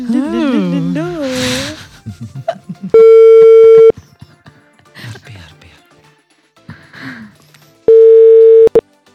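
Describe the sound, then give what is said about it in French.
Ringback tone while an outgoing call is placed: two steady, loud, one-second tones with a long pause between them, with people talking before the first tone and in the gap. “Allez, on appelle tout de suite Ismaïl.”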